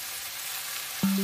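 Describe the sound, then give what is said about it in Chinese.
Sizzling of chicken stir-frying in a pan until its surface turns golden, a steady, even hiss that continues throughout without voices. “待鸡肉炒到表面金黄，再加入红茶一起慢炖。”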